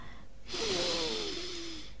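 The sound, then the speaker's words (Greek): A single long breath drawn in through the nose during a relaxation breathing exercise: a steady airy hiss lasting about a second and a half, with a thin whistling tone that slowly drops in pitch. No voices. “Πάμε λοιπόν, εισπνοή από τη μύτη.”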